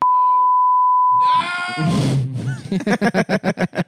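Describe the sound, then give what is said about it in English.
A censorship beep: one steady, high pure tone holding for about a second and a half, then cutting off as people talk. “they can hear me talk through the beep”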